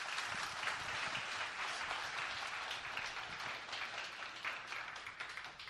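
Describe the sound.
A church audience applauds to welcome a guest speaker, with dense, continuous clapping from many hands that holds steady and eases slightly toward the end, fairly quiet and without talk.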